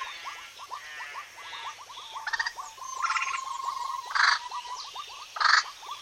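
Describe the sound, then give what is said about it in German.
A great tit sings on a spring morning outside a bedroom window, repeating quick series of short, high chirping notes in rhythmic phrases, with a few louder bursts. “Das Motiv stammt von einer Meise, genauer gesagt von einer Kohlmeise”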